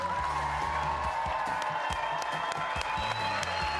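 A studio audience claps and cheers steadily as the head coach of the BYU Cougars basketball team is welcomed onto the show, a dense, sustained wash of applause.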